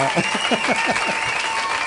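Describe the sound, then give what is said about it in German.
A burst of applause in a radio studio: steady, dense clapping that fills the whole clip, with a voice briefly audible over it. “Hier kommt ein Applaus”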